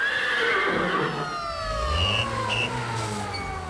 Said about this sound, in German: Die Pferde wiehern.